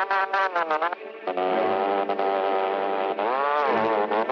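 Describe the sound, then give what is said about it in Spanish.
A motor starts up and buzzes, powering a fast boat in a swamp: a loud, harmonic drone that opens with stuttering bursts, then holds steady with slight pitch wobbles and a dip and rise near the end. “¡Enciende ese motor!”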